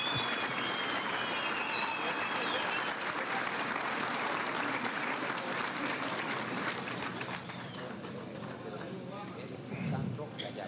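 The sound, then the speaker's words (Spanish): Sustained applause from a crowd at a Venezuelan government ceremony honouring military women: dense, steady clapping that runs the full length, with voices mixed in beneath it. “Un aplauso a la mujer militar venezolana.”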